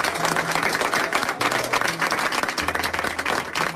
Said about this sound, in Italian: Ecco, un applauso che accompagna il discorso dunque di un personaggio politico noto allo scenario armeno